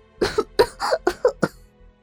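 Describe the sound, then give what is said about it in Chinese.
A woman fakes a cough with a quick run of several short, voiced coughs in close succession. The coughs are fairly loud and rasping, and no one talks. “我假装咳嗽。”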